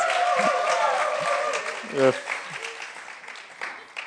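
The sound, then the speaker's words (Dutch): Church audience clapping at a bilingual service, a soft wash of applause that gradually fades, with a voice speaking over the tail end. “Now you can put your hands together. Nu kan je klappen.”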